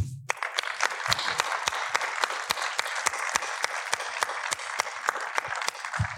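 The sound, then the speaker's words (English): An audience applauds Alejandro Monteverde, director of the film Sound of Freedom, with many crisp, sharp claps in a steady, sustained patter that lasts throughout. “I want to give a big applause to my mentor, my best friend, and an amazing artist for this film.”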